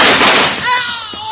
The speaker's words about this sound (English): Charlie Plummer draws his gun, aims it at Jingles, and...